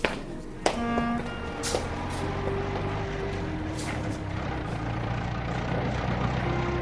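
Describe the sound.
A car engine drives slowly along a jacaranda-lined road beside the Nile, giving a steady low rumble with a few faint higher tones and no talk.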